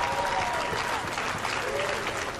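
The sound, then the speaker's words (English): Baseball crowd at a North Carolina versus Notre Dame game in Charlotte, a dense, sustained roar of fans with faint chanting voices running through it. “And now the Let's Go Tar Heels chant emerging from those in Carolina blue in the crowd.”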